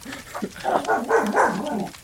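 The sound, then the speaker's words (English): A dog yelps and barks in a continuous run of wavering, whiny cries that stay fairly loud throughout. “I love when dogs go from that yelp to that bark.”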